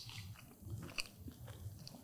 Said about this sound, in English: Oh, you can hear the crunch of that bacon. It made it nice and crispy.